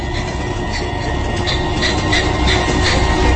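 Steady, loud rumble of a train engine carrying sleeping passengers, a dense, unbroken drone that holds at an even level throughout with no voices.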